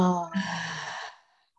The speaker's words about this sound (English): Big inhale now. Take in as much positivity, as much joy, as much vitality. And exhale.